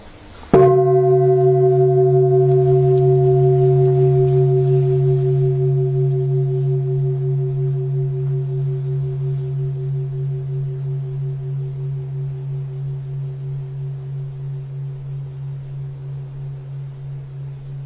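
A meditation bell is struck once and then rings on in a long, steady tone, with a deep hum and clear overtones fading slowly over many seconds, heard alone without talk.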